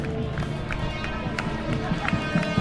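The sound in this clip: Runners passing by in a street race, their many footfalls making a dense, steady patter that carries through the whole stretch.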